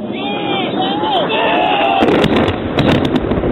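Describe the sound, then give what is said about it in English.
Bombs dropping and exploding: faint whistling tones that waver and fall, followed by a rapid series of sharp blasts, all with a thin, tinny quality. “confirm that's bombs dropping on Man's Drac.”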